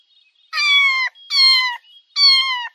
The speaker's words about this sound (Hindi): Cat.